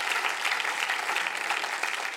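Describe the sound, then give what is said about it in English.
An audience applauding during a church service: a soft, continuous wash of many hands clapping, even in texture from start to end. “Can we give God a hand clap of praise that we get to be in a nation that is free?”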